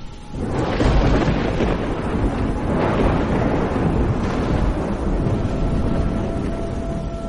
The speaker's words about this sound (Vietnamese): bất ngờ ở ngoài sân, một tia sét sáng lòa bổ thẳng xuống, âm thanh vang rền đinh tai